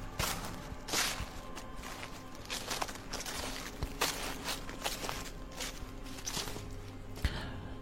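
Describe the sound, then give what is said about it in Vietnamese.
Footsteps crunch and rustle through dry leaves on a forest floor, a steady walking pace of many soft, crackling steps that keep up across the whole stretch with no voices. “Từ phía bên kia cánh rừng, âm thanh bước chân người dẫm lên lá cây sột soạt vang lên.”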